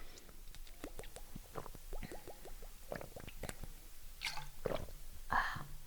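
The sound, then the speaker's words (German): Sipping a drink up close: many small wet mouth clicks, squishy gulps and swallowing sounds in an irregular sequence, fairly faint and with no talking. “Oh, ich muss noch einen Schluck trinken, mir ist gerade so warm, ey.”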